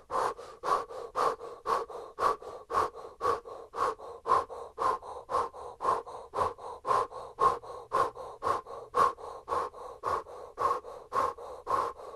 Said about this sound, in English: Final stretch, keep the breath of fire, pump stronger, harder, more powerfully.